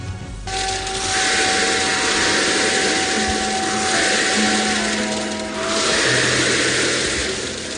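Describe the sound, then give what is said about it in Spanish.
Lottery balls spinning in a drum at a lottery draw: a dense, steady rattling rush that swells and eases, with a faint sustained tone underneath. “El de las bolas dando vueltas en el bombo.”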